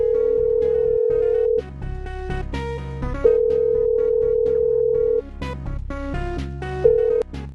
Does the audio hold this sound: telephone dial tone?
yes